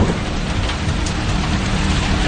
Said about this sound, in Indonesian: Aku lagi dan lagi harus menerobos hujan gerimis untuk sampai di sana.